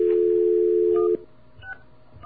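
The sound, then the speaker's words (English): A touch-tone telephone number is dialed. A loud, steady dial tone holds for just over a second, then cuts off. A few faint, short keypad beeps follow. “Let's call that number and see just what we get. Okay, we have our dial tone.”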